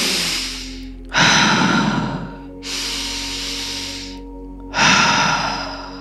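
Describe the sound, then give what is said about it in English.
Slow, deep breathing during a breathwork exercise done with gentle movement. Long, airy inhales and exhales alternate evenly at an unhurried pace, about four breaths in a few seconds, with no talking. “Just taking the next couple of minutes to breathe.”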